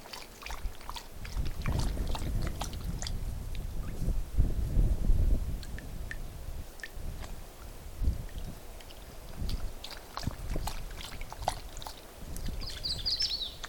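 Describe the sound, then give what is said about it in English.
A dog drinking water: repeated soft, wet lapping and splashing in an uneven rhythm at moderate loudness, with brief high bird calls over it. “And the sound of my dog drinking water.”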